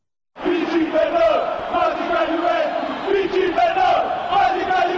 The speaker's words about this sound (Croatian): Pobjedi za nas, magične Juventuse. Pjevaju navijači i očekuju tri boda u utakmici protiv Chelsea